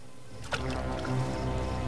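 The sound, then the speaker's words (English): A knife splashes into water with one quick plop whose sharp onset slides downward in pitch, followed by a low, continuous watery wash. “A knife splashes into water behind De Silva.”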